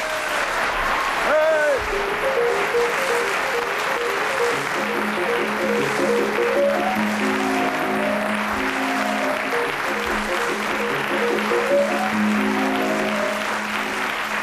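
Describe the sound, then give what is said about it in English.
Chopin's Minute Waltz plays on piano as the theme music of a comedy panel game, heard under steady audience applause that keeps an even level throughout. “as the minute waltz fades away once more, it is my pleasure to welcome the four interesting and varied personalities who this week are going to play Just a Minute.”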